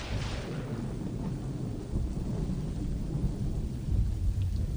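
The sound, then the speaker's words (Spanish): A thunderstorm with heavy rain pounding house rooftops: a dense, steady roar of rain over deep rumbling thunder that carries on throughout and swells slightly toward the end. “se había transformado en un cielo gris de tormenta. Las gotas de lluvia cayeron con violencia sobre los techos de las casas.”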